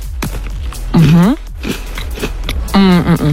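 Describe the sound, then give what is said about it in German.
Someone bites into a cookie with caramel topping, giving a series of sharp, crisp crunches. Voices talk loudly over and between the bites. “Also leckeren Keks mit Karamell-Topping. Beiß doch gerne mal rein und probier dich.”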